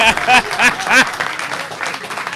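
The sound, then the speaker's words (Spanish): Audience applause at an acoustic performance, a spread of rapid claps that rises under a voice at first and then carries on alone at a moderate level. “Sí, aplaudan porque público lo puedo traer”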